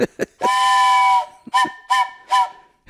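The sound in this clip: A train whistle sounds the flagman-protecting-train-rear signal: one long blast, then three short blasts. Each blast is a loud, steady, multi-toned chord with clear gaps between them.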